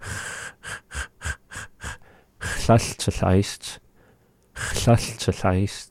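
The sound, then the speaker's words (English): Breathy voiceless puffs made with the breath, like a kh consonant without voice: a rapid run of short, sharp bursts, followed by longer, louder, breathier vocal sounds. “there's not really any voice with it. And so what we're doing is we're using the breath to be able to make that sound.”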